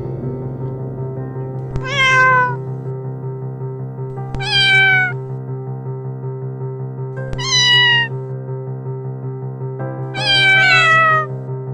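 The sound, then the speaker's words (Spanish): A cat meows four times, each a clear, drawn-out, falling cry spaced a few seconds apart, the last one longer. A steady sustained musical drone plays throughout beneath it. “el programa de hoy está dedicado a los gatos.”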